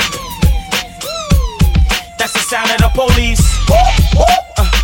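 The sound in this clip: Police siren wails over a hip-hop beat: repeated falling and rising tones ride above heavy, steady bass thumps, loud throughout.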